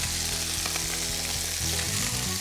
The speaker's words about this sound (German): Die werden wie ganz langsam frittiert. Darf man von der Hitze nicht zu hoch machen.